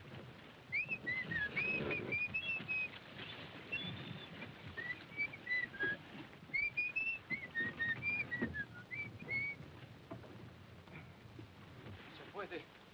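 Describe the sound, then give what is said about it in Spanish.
A man whistles to call up the wind while becalmed, thin wavering notes repeating in short phrases over a steady rushing, rain-like noise. “Un poco más, silbaré y llamaré al viento.”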